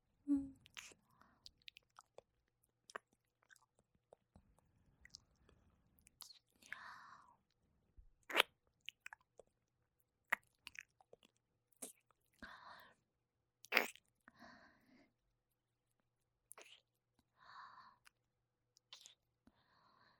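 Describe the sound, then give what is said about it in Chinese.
Intimate kissing sounds, many soft wet lip smacks and clicks scattered irregularly, faint and close, interspersed with breathy whispering. “想不想我再亲的用力一点啊？”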